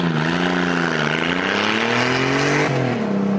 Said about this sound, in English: that flatulent sound. Well, it actually sounds like a Porsche. It really does sound like a air cooled Porsche, even though it's a liquid cooled motor.